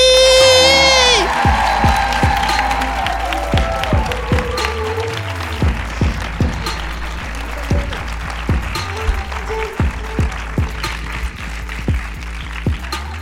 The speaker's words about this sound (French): Mesdames et messieurs, s'il vous plaît, faites un bordel, mais vraiment abusé pour Sally.